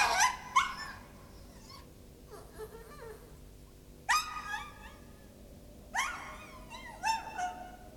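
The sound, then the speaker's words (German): A small dog whimpers and yips in a few short, high-pitched bursts, with quiet gaps between them and fainter whining in the pauses. “Ach, der widerwärtige kleine Hund. Willst du wohl, zieh ab.”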